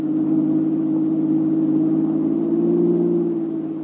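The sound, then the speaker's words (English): A car engine roars along a highway, a loud, steady low drone that swells slightly toward the end before easing off. “Your car roars past Mary's car within a few miles, and you leave her behind.”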